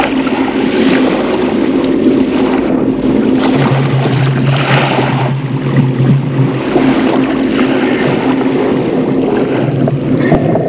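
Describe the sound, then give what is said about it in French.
A submarine descending vertically underwater gives a loud, continuous low rumble and mechanical hum, steady throughout, with a deeper droning tone rising out of the noise partway through. “Le sous-marin descend à la verticale.”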